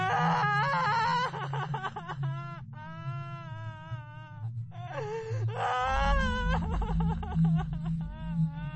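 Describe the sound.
A woman crying as a sound effect in a horror tale: sustained, wavering wailing sobs with tremulous pitch, broken by short gasping pauses over a low steady hum.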